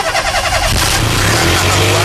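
A car engine starts with its bonnet open during an engine oil job, a loud mechanical crank that catches into a steady, throaty running rumble.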